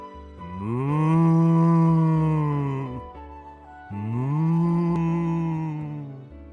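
Cattle mooing: two long, loud, low moos, each lasting a few seconds, separated by a short pause, with no talk.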